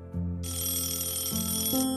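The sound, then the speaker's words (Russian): A telephone rings on a desk: one high electronic trill lasts just over a second above a low, steady tone, and nobody speaks. “Раздалось дребезжание телефона, стоявшего на столе.”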